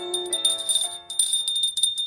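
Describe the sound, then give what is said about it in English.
A hand bell rung by a woman upstairs produces continuous, fairly faint jangling, a bright high ring layered over lower sustained tones, with a brief dip in the ringing near the middle. “she'll play with that bell when she's bored”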